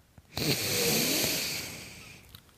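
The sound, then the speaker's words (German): A single deep breath rushes in as a loud, airy hiss. It swells quickly, holds for about a second, then slowly tapers away, lasting roughly two seconds in all. “Und darauf nehmen wir jetzt mal einen tiefen Atemzug.”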